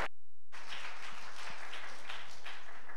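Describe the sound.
An audience applauds to welcome a speaker. A dense wash of clapping begins abruptly after a brief tonal moment and carries on steadily to the end.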